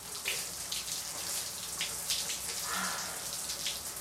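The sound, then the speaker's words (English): Shower water running in a steady, faint hiss, an unbroken spray with light splashing texture throughout and no other distinct sounds. “She rinses her hair and rubs her face under the running water.”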